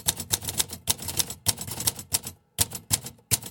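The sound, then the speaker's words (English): Typing on a typewriter: many rapid, crisp keystrokes in uneven bursts, then a short pause followed by a few sharply separated strikes. “That's right, writing. And more specifically, writing articles for scientific journals. Maybe not so much with a typewriter today”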